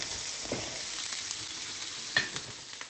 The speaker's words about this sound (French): Alors j'attends que les aubergines soient bien cuites